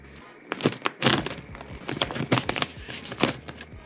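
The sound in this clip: Crinkling and crackling plastic as a Cookie Hunter snack package is torn open, with many sharp, irregular rustling bursts of moderate loudness.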